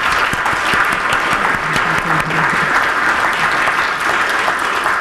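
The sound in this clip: Steady applause from an audience welcoming speakers at a City Club of Cleveland forum: dense, continuous clapping that holds an even loudness for the full stretch with no talk over it.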